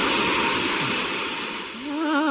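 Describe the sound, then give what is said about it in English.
Steam hisses in a loud, steady rush that fills the whole clip, with a wavering tonal whine joining near the end. “Be careful, Min, careful. Don't let that steam get up your leg.”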